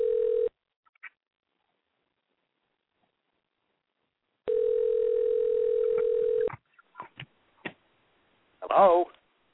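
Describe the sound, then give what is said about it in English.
A telephone line gives a steady dial tone in two long stretches, followed by a few sharp clicks and then a brief voice at the end. “Should be dialing now.”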